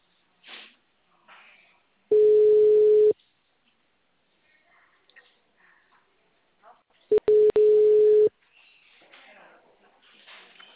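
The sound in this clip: Telephone ringback tone heard while placing a call: two long, steady, mid-pitched tones, each about a second long and separated by a pause, with faint quieter sounds in between.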